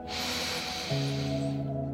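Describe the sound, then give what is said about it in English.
A deep breath drawn in during a guided energising walk: a soft, airy hiss of inhalation for about a second, fairly faint, and then a steady low humming tone comes in and holds to the end. “Feel free to move the arms up above the head as you breathe in. Deep breath in”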